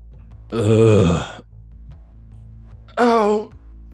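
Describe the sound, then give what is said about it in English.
A person groans twice without words. The first groan is longer, low and drawn out. After a quiet pause comes a shorter, higher-pitched second groan. “A groan.”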